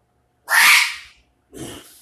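A single sneeze, a loud, sharp, bright burst of breathy noise that trails off, followed by a softer second noisy burst.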